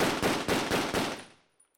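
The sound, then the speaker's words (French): A gun fired until its magazine is empty: about five loud shots in rapid succession, then a fading ring with a small click near the end, no voices. “Elle approcha le canon et tira jusqu'à vider le chargeur.”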